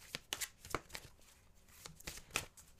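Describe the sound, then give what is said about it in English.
Oracle cards are shuffled by hand, giving many quick, faint papery slaps and flicks in an irregular rhythm. No voices are heard. “So we're going to start off by pulling some Oracle cards.”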